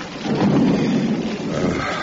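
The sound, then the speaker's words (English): Heavy rain during an expedition, a dense, steady wash of sound with a deep rumbling roar underneath, swelling slightly and then holding level throughout. “Curse this rain.”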